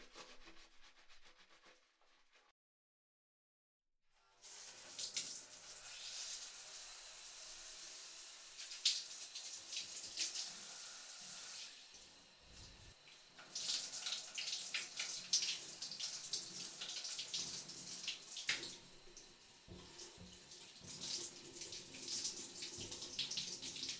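Water runs steadily from a tap to rinse someone off in a bath, a loud hissing rush after a brief silence near the start, with rubbing and splashing against it.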